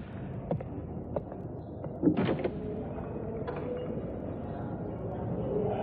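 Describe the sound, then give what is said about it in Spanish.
A door is opened in an apartment, giving a brief cluster of knocks and rattles near the middle over a steady low background hum. “Ahogando el llanto, va a la puerta y la abre.”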